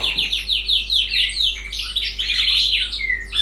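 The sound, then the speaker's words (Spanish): A canary sings in a home backyard patio, a bright, rapid stream of high chirps and trills that repeat in quick phrases, over a faint steady low hum. “Hablaba con el zorzal, con el cardenal, no. Con el canario. Mirá lo que era el patio de mi casa ayer a la tarde. Mirá cómo canta.”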